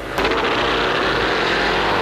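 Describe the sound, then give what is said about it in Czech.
Racing motorcycles of the up-to-350 cc class at the start of a race make a dense, loud, continuous engine roar that surges in almost at once and holds steady. “Start třídy do 350 kubických centimetrů. Závod je hned od začátku velmi napínavý.”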